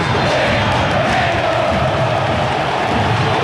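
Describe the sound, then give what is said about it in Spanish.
Cerro football fans chant and sing in the stadium stands, a loud, massed roar of voices that holds steady without a break. “Escuchen la nueva olla azulgrana.”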